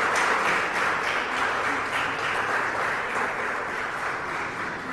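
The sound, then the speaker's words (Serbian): A studio audience at a televised talk show applauds with continuous, dense clapping that holds steady and loud for around five seconds. “Ovaj aplauz koji čuju vaši gledalci”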